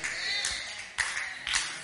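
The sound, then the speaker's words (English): Congregation clapping during a church sermon: a steady wash of applause at moderate level, with a couple of sharper, louder bursts partway through. “I think you can clap a little better than that one. See, you're not clapping for me. You're clapping for the revelation.”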